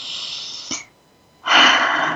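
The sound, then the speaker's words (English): A deep breath in taken as a breathing exercise, a loud, airy rush of air that follows a softer breath and a brief pause. “Let's breathe that in.”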